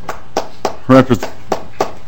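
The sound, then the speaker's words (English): Scattered applause breaks out during a legislative hearing: several sharp, evenly spaced hand claps with a short burst of voice in the middle. “Representative McDonald, we can hold the applause down, please.”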